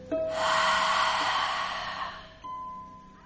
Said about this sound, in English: Using your belly to breathe in. And breathe out with the sound.